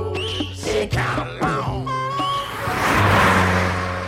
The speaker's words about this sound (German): Szene 5. Auf der Straße. Das Auto.